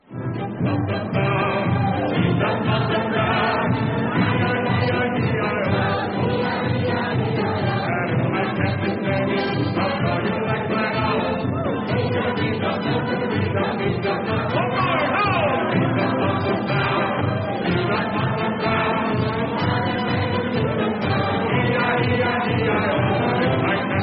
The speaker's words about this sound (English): Knees Up Mother Brown, sung by the audience at the old Metropolitan Edgware Road.